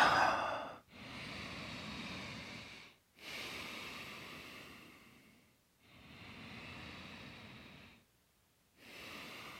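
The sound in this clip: Deep, slow breaths taken during a mind-body movement session. Long, airy rushes of breath with brief silent gaps between them, steady and fairly soft, with no talking.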